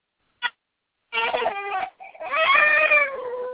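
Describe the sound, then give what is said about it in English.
A young girl cries in a tantrum, heard over a phone: a brief high squeal, then a wavering, shrill cry and a longer, sustained wail that continues to the end. “Doesn't she throw the best tantrum? That's some high quality tantrums”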